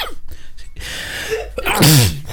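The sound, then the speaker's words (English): A person with hay fever lets out a single loud, explosive sneeze after a stretch of quiet breathy noise. No voices are heard. “Sneezing's not funny, by the way. Sorry, I didn't take a hay fever tablet this morning.”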